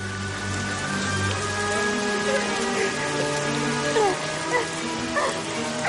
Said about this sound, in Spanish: La lluvia empapa su pelo y su ropa.